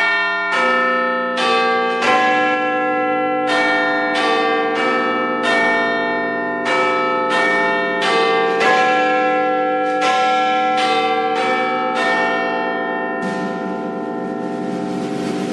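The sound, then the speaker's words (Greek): Big Ben in London chiming: a long run of many ringing bell strikes, each with rich, lingering overtones that overlap into a sustained metallic wash, loud and steady with no talking. “η καμπάνα που ακούσατε εκεί από το Big Ben”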